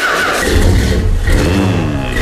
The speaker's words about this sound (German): was der Fluxkompensator und der DeLorean noch hergeben. Ich guck mal, ob er noch startet überhaupt.